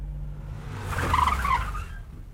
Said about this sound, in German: So, jetzt hier bei der zweiten Laterne halten.